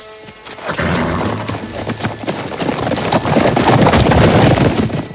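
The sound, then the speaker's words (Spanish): Hoofbeats of a group of horses trotting off together in a Western film, many overlapping clip-clops that swell louder after the first second over a low rumble. “Emprende la marcha al trote seguido por todo el grupo.”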